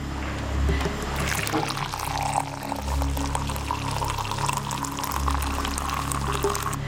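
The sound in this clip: Boiled yak milk poured into an enamel bowl to cool, a continuous splashing liquid pour lasting several seconds over a low, steady background hum.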